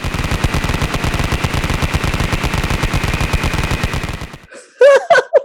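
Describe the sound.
Rapid machine-gun fire rattles as a sound effect introducing a quick-fire question round, a fast, steady, loud stream of shots for about four seconds before a voice speaks briefly.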